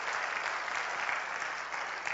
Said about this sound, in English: Clap your hands to the Lord.